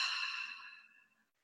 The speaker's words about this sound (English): So I start with deep breath in for a count of four. And then you pause and hold the breath for just one count of one, and then slowly exhale out through the mouth.